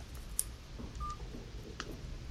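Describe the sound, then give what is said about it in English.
A single short touch-tone beep sounds as a number is dialed on a touchscreen device. It is faint and brief, set over a low, steady background hum with a few soft clicks. “And the best part is you can dial a number. I will show you right now.”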